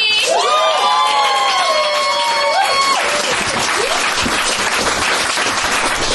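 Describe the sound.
A comedy show audience applauds and cheers to welcome a comedian. A voice shouts over the first few seconds, then dense clapping and whoops fill the rest at a loud, steady level.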